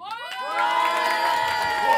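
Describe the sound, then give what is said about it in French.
An audience at a live rock show cheers, whoops and claps, a loud continuous burst of shouting and applause that swells slightly and holds steady. “le premier festival clandestin de chez Arthur, on applaudit.”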